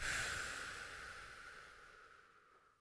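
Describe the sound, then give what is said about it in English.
A held breath slowly let out, a soft airy hiss that starts strongest and fades steadily over a few seconds. “One more time. Hold the breath and let it out.”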